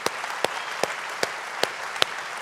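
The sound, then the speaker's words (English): A church audience claps during a service, a full, steady wash of applause with regularly spaced, slightly louder accents. “Come on, church, let's put our hands together.”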